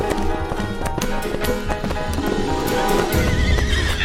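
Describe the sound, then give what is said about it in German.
Horses gallop side by side, head to head, in a dense, loud run of rapid hoofbeats. A horse's whinny rises above the hoofbeats, and there is no talking. “Botjani reitet neben ihr. Kopf an Kopf rasen sie dahin.”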